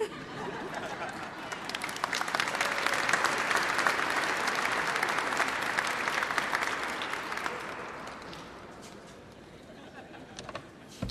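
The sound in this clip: An audience gives a woman professor another round of applause. Dense clapping swells to a strong peak, then gradually thins and fades toward the end, with some crowd murmur mixed in.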